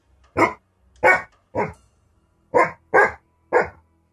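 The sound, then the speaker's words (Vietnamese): A white-furred dog on a rooftop at night barks loudly six times in an uneven rhythm, each bark sharp and full, with quiet gaps between them. “Tiếng chó sủa vang lên rất lớn. Đó là tiếng của con chó lông trắng đứng ở trên nóc nhà tôi mỗi đêm.”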